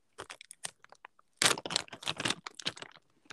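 Old biscuits being eaten: many crisp, irregular crunches and crackles of chewing, some louder and denser bursts in the middle, with no talking.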